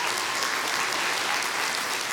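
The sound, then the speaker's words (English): Congregation applauding at a church service after news of a successful fundraising drive: a short, continuous wash of many hands clapping, even and steady throughout. “Yeah, you can cheer for that.”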